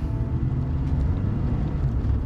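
A car eases gently into motion from a stop at a red light: a low, steady engine and road rumble with no sharp surge.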